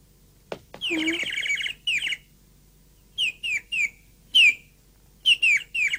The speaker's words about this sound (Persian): اون پرنده کدوی تولدمه، قشنگه نه؟